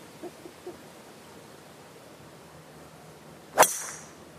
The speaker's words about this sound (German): Ist kein schlimmer Slice. Ich habe den ein bisschen oben rechts getroffen. Der darf, dürfte ja, dadurch ein bisschen kurz sein.